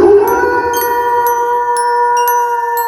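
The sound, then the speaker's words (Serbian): A wolf's howl holds one long, sustained and fairly loud tone at a steady pitch, with a few sharp clicks scattered across it. “U šumi pored njihovih kuća živelo je mnogo opasnih zveri. Jedna od njih bio je i zli vuk.”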